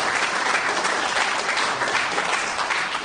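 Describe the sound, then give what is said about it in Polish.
Applause from the audience at a Polish local-government gathering, greeting a regional councillor. Dense, steady clapping continues throughout at an even level. “brawa dla kolegi Andrzeja”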